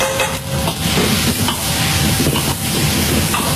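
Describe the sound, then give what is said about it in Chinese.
Fatty pork sizzles in a wok as the fat renders for Beijing-style zhajiang fried bean sauce in a teahouse back kitchen, a loud, steady hiss and crackle that fills the whole stretch without any talk. “先要把油煎出来，把那肥的肉煎出来，油煎出来。”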